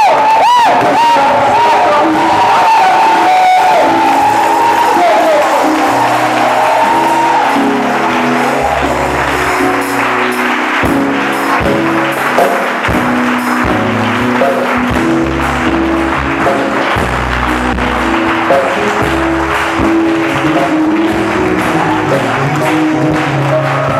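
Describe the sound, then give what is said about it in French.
A church audience cheering and acclaiming God: loud, sustained crowd noise of shouts, whoops and clapping that stays dense and steady throughout. “Et je veux que tu acclames Dieu pour la vie.”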